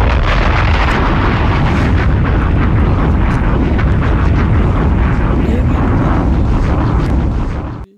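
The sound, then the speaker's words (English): Bombs exploding in a loud, dense, continuous roar of blasts and rumbling that fills the whole stretch, then cuts off abruptly at the end. “Bombs!”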